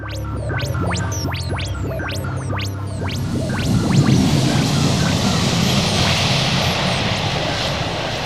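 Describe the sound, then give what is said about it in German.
A time machine sound effect starting up and taking off: rapid mechanical ticking over a hum gives way to a swelling, loud, steady roaring rush. “Till startet die Zeitmaschine und los geht's.”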